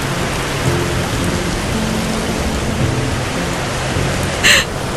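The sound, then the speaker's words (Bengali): Steady rain pours down on someone sitting alone on a bench at the water's edge, a dense, even hiss of falling drops that holds at the same level throughout with no voices. “কিনারে একলা বেঞ্চে বসে অদিতি গাছের পাতার মতো ভিজতে লাগল। সে ছাতা খুলল না, উঠল না, তার চোখের জল মিশে গেল বৃষ্টির জলে।”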